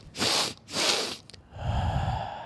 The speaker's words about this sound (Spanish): hay una técnica para cuando tú te sientes muy ansioso o con mucho estrés, en el que tú haces 3 inspiraciones profundas, rápidas y liberas.